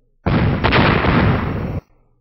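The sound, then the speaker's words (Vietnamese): A loud explosion as giant boulders in a stone formation are struck and split: a dense, roaring blast that holds steady for about one and a half seconds, then cuts off abruptly. “Thanh âm nổ vang lớn, hoàng mang chói mắt chợt hiện ở phía dưới, hơn 10 khỏa cự thạch trong thạch trận liên tiếp bị chém làm đôi.”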